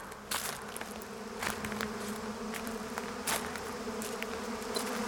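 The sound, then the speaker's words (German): Bees buzz around a nest in a steady, dense drone that holds throughout without a break, like many insects in flight at once. “Schau mal, all die Bienen. Komm, wir suchen das Nest.”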